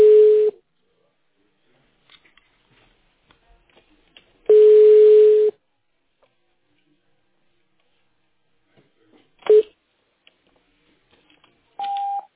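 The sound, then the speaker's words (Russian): Telephone ringback tones sound while a call is being connected: a few steady mid-pitched tone bursts separated by silent gaps, ending with a brief higher-pitched beep. “Продолжается попытка дозвониться до абонента, который пока что не успел ответить на ваш вызов.”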